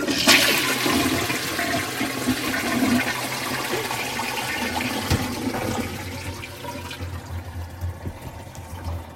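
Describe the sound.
A toilet flushing, opening with a loud burst of rushing water that settles into steady gurgling flow and refill, fading gradually over about nine seconds.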